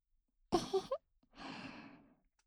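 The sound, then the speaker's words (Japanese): Air is blown gently into the ear: a short, voiced puff of breath, then after a pause a longer, soft, breathy whoosh that fades out, all quiet and close. “体がびっくりしないように優しくふうふうしますね。”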